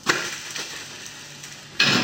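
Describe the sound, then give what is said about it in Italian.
Steady sizzling from a frying pan as an omelette is flipped, with a clatter of the pan at the start and another sharp clatter near the end. “Procediamo a una rapida dimostrazione su come si gira la frittata. Occhi aperti.”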